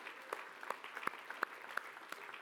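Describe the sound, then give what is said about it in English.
Light, sparse applause from a church audience, with a few scattered claps at uneven intervals, faint and thin rather than a full ovation. “Let's give him a clap offering.”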